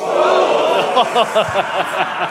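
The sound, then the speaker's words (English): A live audience at a panto-style show in Bristol shouts back a call-and-response answer, a loud massed burst of voices rising over steady crowd murmur, with a few rhythmic shouted pulses toward the end. “It's a bit of audience participation. It's like a typical panto scenario. I say transit, you say sport.”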